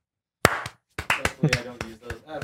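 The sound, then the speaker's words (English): Sharp hand claps used to sync audio and video at the start of a recording: a single crisp clap, a short pause, then several more claps at uneven spacing, with faint voice sounds between them. “Should we clap? Are you rolling? Yep, we're rolling. There's a, just all right. A... Sync. Clap.”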